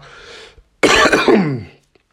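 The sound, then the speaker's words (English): A harsh, rough cough from a person still recovering from COVID-19. One forceful, throaty burst follows a softer breathy lead-in, then the sound stops abruptly and silence follows. “as you can hear through the episode, I've been dealing with this cough still.”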